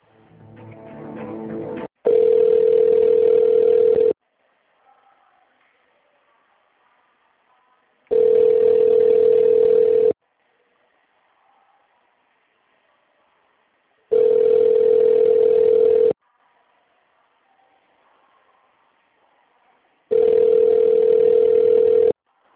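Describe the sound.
Telephone tones play while a call is being transferred: four steady, mid-pitched tones, each about two seconds long, are separated by long silent gaps, with a brief noisy burst just before the first.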